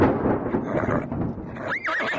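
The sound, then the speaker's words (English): Horses of a four-horse calèche: a wavering whinny rises and falls near the end over a steady rumble of hooves and harness noise. “A calèche with four horses had drawn up beside us.”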